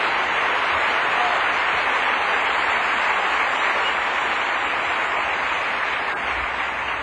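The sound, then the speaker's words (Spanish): A church audience applauding loudly, a dense, steady wash of clapping that holds at full strength throughout. “Démele un aplauso fuerte.”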